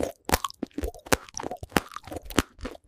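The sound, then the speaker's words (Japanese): Crunchy food is chewed with loud, sharp crunches in an irregular rhythm, many bites packed into under three seconds, with nothing else heard. “カリカリ言ってるのに食べてるの？食べてないの？”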